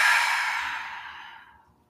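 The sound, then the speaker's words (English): A long, deep exhale during a guided belly-breathing exercise. The soft, airy breath starts strongest and fades gradually to nothing over about two seconds. “And then two more times like that, deep inhale from the bottom of the belly. Holding at the top for a moment, and then exhale, just release.”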